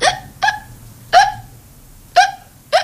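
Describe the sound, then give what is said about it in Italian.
Hiccups come five times at uneven intervals, each one short, sharp and voiced, with near silence between them and no talk. “viene il singhiozzo.”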